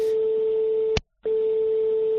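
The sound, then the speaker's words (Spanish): A phone line tone after a dropped call: one steady, mid-pitched continuous tone that breaks off with a click into a brief silence, then resumes at the same pitch and level. “¿Eso es un teléfono que está sonando o se nos ha cortado la llamada o...? Se ha cortado, ¿no?, la llamada.”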